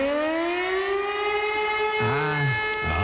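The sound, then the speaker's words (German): Hamburg's storm flood warning sirens sound during a test, a loud sustained wail rich in harmonics holding a nearly steady pitch, joined near the end by further wavering, swooping siren tones. “Hamburgs Sturmflutsirenen werden getestet. Muss man mal gucken, ob die noch funktionieren.”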